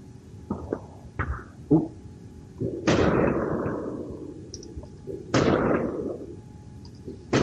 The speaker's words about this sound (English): I bet you they're shooting some of the ones that rattled. Whoa! What the? It's fireworks.